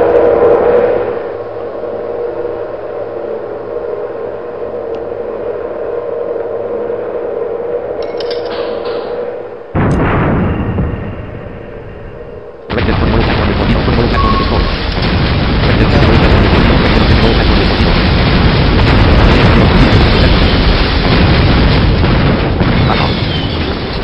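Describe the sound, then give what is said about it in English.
Torpedo launches and underwater explosions from a submarine video game: a sudden burst cuts in midway, then a loud, dense roar of rumbling blasts and debris noise carries on steadily to the end. “We're gonna fire our 3 remaining torpedoes. Hopefully that'll do it.”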